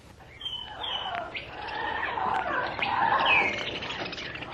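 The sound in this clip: Hummingbird chirping, a rapid, continuous stream of thin high tweets and squeaky little calls at a fairly steady level.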